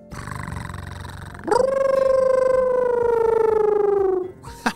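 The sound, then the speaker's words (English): A voice imitates a wolf cat: a low, rough purring rumble, then a loud, long, steady howl-like tone that holds for a few seconds before cutting off. “It purrs like a cat, and then howls like a wolf. And then he combined the two to make a wolf cat sound.”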